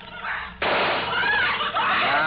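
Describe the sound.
A gunshot goes off in a radio drama: one sudden, sharp report cuts in after a quieter moment and is followed by a sustained noisy tail that lingers to the end.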